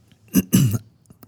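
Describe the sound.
Coughing from something caught in the throat comes as two rough, throaty bursts in quick succession, the second longer and stronger, followed by a couple of faint clicks.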